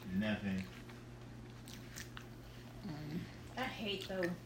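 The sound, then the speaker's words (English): Faint biting and chewing of cheesecake, soft wet crunches and smacks, runs quietly beneath people talking. “Look at you eat a fucking cheesecake.”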